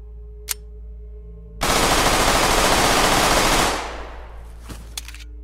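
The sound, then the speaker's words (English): Rapid automatic fire from a G18C pistol in a video game: one loud, unbroken burst of many shots lasting about two seconds, which then fades into a ringing tail. “The G18C, a rare, late-game weapon that must be looted from a bunker. The rate of fire on this thing is downright scary.”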